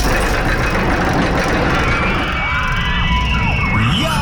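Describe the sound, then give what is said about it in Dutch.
A roller coaster running at an amusement park roars loudly and steadily, a continuous low rumble with rushing noise across the whole clip. “Als je die hoort, als je de achtbaan hoort rijden”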